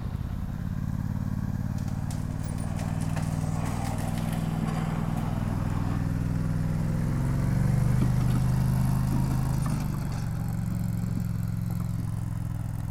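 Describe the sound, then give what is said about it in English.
Steady engine drone from a tracked four-wheeler running on treads instead of wheels as it pulls a heavy trail roller, with a low rumbling hum and light mechanical clatter holding at an even loudness throughout. “So Steve is hooking up this fearsome roller to the four-wheeler, which has no wheels. It just has treads.”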